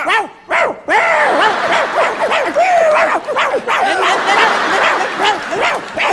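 Dogs barking and yipping in a dog pen: a dense, loud run of many sharp, overlapping barks and yelps that continues with barely a pause through the whole clip.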